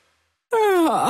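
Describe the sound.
A person yawns loudly, a voiced breathy groan that starts abruptly after silence, its pitch sliding down, then dipping and lifting briefly at the end.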